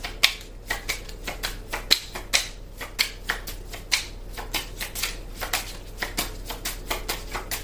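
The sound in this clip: Cards riffle and shuffle steadily for a card reading, a long run of crisp, papery snaps in a fast, even rhythm with no talking.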